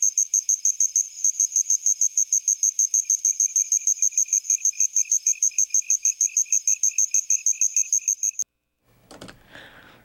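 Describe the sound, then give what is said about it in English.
Crickets on Réunion Island chirp in a rapid, evenly spaced train of high, shrill pulses that runs steadily for several seconds. It then cuts off abruptly, and a short burst of a different rustling noise follows. “What we just heard was a little bit of cricket from Île de la Réunion.”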